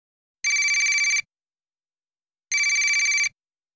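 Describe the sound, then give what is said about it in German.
Mobile phone ringtone: two identical high, rapidly trilling electronic bursts, each under a second long, separated by a gap of silence. “Mein Handy klingelt.”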